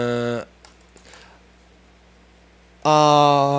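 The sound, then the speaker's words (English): A few soft, scattered keystrokes on a computer keyboard as a Google search for Rolls-Royce news is typed, heard in a quiet gap between stretches of talk. “I'm going to Google right now and see if there's any news, because that's interesting. Rolls Royce news. I'm going to type it in.”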